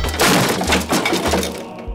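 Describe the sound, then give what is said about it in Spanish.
Wooden floorboards smash under a greatsword blow, making a dense, sustained burst of loud crunching and cracking over deep, low booms. “Él empujó el taburete de madera, alzó su mandoble y golpeó el suelo, cuyos listones estallaron hechos pedazos.”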